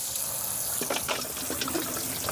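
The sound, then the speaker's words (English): Tap water runs over frozen chickpeas in a colander, a steady rushing hiss broken by small splashy spatters throughout, with no talking. “So all we do is put them in a colander and defrost them under some water.”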